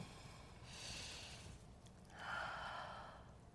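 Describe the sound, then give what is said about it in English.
Deep breathing: two slow, soft, airy breaths, faint against a steady low background noise. “how about close your eyes and breathe deeply? Start there.”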